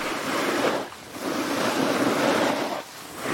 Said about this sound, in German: Und ihr hört es direkt, wir sind beim Snowboarden und damit sind wir beim deutschen Parasnowboard-Pionier Christian Schmid